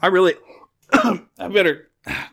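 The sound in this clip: Harsh throat clearing and coughing, four loud, gravelly, voiced bursts separated by short pauses, the first drawn out longest.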